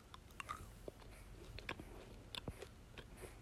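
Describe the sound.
Soft chewing of a mint-flavoured gummy candy, heard as many faint, irregular clicks and squishy crunches at a very low level, with no talk over them.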